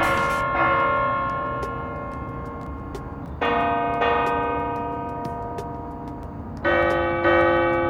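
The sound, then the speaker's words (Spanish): A clock bell strikes eleven at night in a prison, sending out bright, ringing tones in spaced clusters about every three seconds. Each strike sustains and slowly fades beneath the next. “Acaban de sonar las 11 de la noche.”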